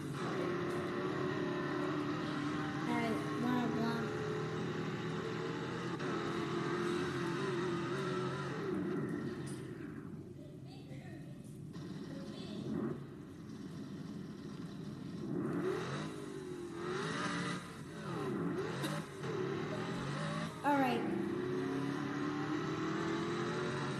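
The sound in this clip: Engine of a stock car in the Stock Car Racer video game, lapping the Phoenix track: a faint, continuous engine drone whose tone sweeps upward several times as the car speeds up, with no talk.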